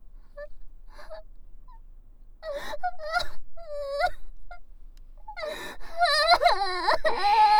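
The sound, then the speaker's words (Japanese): An older sister cries. Faint sniffles come first, then a few sobbing bursts, and the crying swells into loud, sustained, wavering wails that build toward the end. “ああ、泣いちゃった。”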